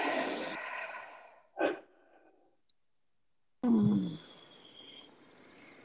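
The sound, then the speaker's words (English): A deep breath taken together by a group during a training session: one soft, breathy rush of air stands alone in the middle, after a noisy start and before a quiet gap and a louder burst of sound near the end. “Would everybody take a deep breath?”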